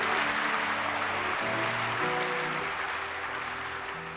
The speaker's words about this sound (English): If you feel like clapping, you can clap. It's part of the church service.